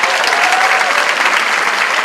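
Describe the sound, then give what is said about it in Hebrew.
Steady applause from a crowd welcoming an elderly guest who is nearly 80: dense, continuous clapping at an even, fairly loud level for the whole two seconds, with no single voice standing out. “איפה כפיים?”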